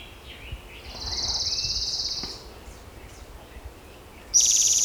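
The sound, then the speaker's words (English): An orange-crowned warbler sings a high, bright trill lasting about a second and a half over a faint background hiss, followed near the end by the start of another high-pitched burst. “Orange Crown Warbler also singing.”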